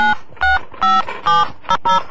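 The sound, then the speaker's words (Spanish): Telephone dialing tones as someone places a call to a friend: six loud, distinct dual-tone beeps, each short and steady in pitch, separated by brief gaps, with no talk. “Aquí lo vemos llamando por teléfono a un amigo”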